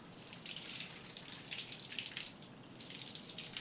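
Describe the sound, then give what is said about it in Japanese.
Water from a running tap rinses hair and scalp, a continuous faint hiss and splash that stays steady and slightly rises and falls throughout. “頭皮は少しマッサージしながら流して。髪の毛スルスルってして気持ちいい。”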